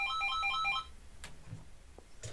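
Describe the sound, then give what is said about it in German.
Telephone ringing at home after dinner, a brief electronic ringtone of quick, high chirping notes in a repeating pattern that stops abruptly, leaving faint background noise. “Zwei Abende später klingelte nach dem Essen bei Brunetti zu Hause das Telefon und Paola nahm ab.”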